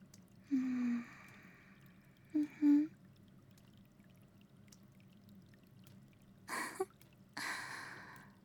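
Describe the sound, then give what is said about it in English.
Water trickling and pouring in two short bursts near the end, following a few soft low tones over a quiet background hum. “Can you hear the sound of the water trickling?”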